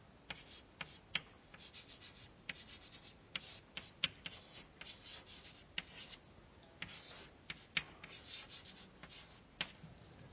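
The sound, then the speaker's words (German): Handwriting on paper: faint, scratchy pen strokes and many small taps in an irregular rhythm, quiet and with no talk. “Ja, ich schreibe noch dazu hier.”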